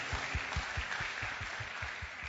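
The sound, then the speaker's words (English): Congregation applause during a church worship service, a clap offering: a faint, steady wash of clapping with regular low thumping pulses beneath it. “Can we give a clap offering to the Lord of Lords and the King of Kings, Jesus Christ?”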